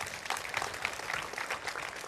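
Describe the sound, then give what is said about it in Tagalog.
A church audience applauds, producing a steady, dense wash of clapping that holds at a fairly even, moderate level from start to finish. “Palakpakan natin si Lord.”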